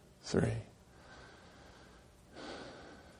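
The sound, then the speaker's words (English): A group of people draws a deep breath together in a sharp, loud, breathy intake, followed later by a softer, drawn-out breath. “Do you do that very often? Breathing, I mean.”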